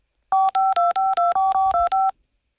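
A telephone number is dialed as nine quick touch-tone beeps in a steady, even rhythm, each a short, clear two-note tone, with silence before and after.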